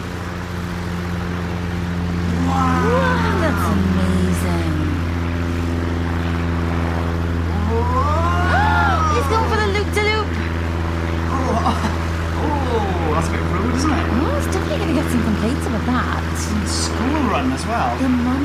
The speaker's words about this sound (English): we are proud to be the first podcast in history to bring you a sketch performed entirely in skywriting. Ready for takeoff? Chocks away!